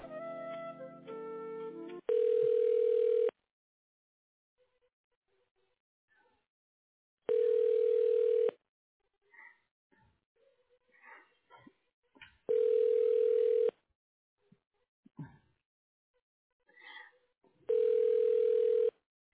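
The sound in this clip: A telephone ringing tone plays while a call is transferred to voicemail: four long, steady buzzing rings at evenly spaced intervals, with quiet gaps holding faint stray noises between them.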